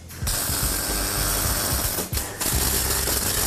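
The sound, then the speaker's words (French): Welding of a pipe to a flange collar, a continuous, dense crackling and buzzing noise that runs almost unbroken, with one brief dip near the end. “Ensuite, on soude le tuyau à la collerette.”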